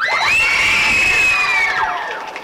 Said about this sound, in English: Go ahead, cheer.